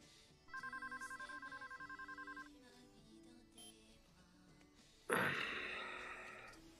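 A telephone rings for an incoming call: one burst of rapid, pulsing trills lasts about two seconds. A sudden loud rushing noise follows a few seconds later.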